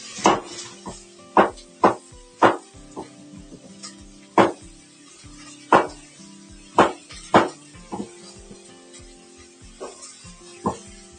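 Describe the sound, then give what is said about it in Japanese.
A knife chops carrots on a cutting board while dinner is cooked, giving many sharp, irregular knocks, some louder than others, with soft kitchen clatter between strikes. “人参を切って入れていきます。”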